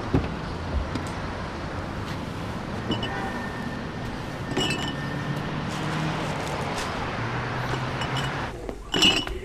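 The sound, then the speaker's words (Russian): Glass beer bottles clinking in a crate as it is set down on a shop counter. A few bright clinks rise over steady background noise, and the busiest rattle comes near the end. “Он выгрузил на стойку в магазине ящик с пивом.”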